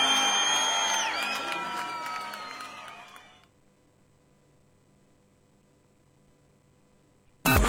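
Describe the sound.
Crowd applause and cheering for a musical duo, a loud, bright wash with whoops that fades over about three seconds. It cuts to near silence, then a sudden short burst returns at the very end.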